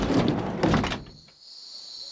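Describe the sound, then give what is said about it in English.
A door in a railway caboose being thrown open, with a heavy thud and scrape filling the first second, then a thin, high ringing that lingers faintly in the quiet. “He struggled to his feet, staggered to the door, and threw it open.”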